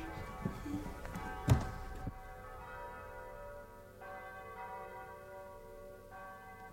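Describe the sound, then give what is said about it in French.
Church bells ring softly in faint, sustained tones that hum on through the whole stretch. A few dull knocks come near the start. “Vous écoutez les cloches ?”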